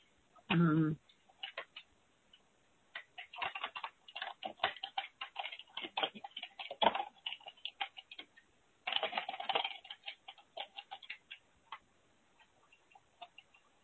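Something being written out, heard as many light clicks and taps in an uneven run, with a louder burst near the start and a dense cluster later on.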